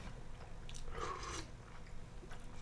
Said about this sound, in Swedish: vi smakar väl på det pocherade vaktelägget med nässelsoppa